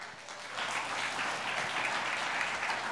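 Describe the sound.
A church audience applauds to welcome a guest pastor: steady, dense clapping that swells quickly and holds evenly, with no talk over it.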